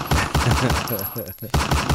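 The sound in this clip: Rapid gunfire in evenly spaced, loud, repeating shots. A voice briefly breaks through in the middle before the shots resume.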